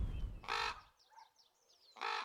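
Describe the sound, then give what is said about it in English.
A raven flying overhead gives two harsh, loud croaking calls. Faint high chirps fill the gap between them. “Now we've got a raven coming over our head.”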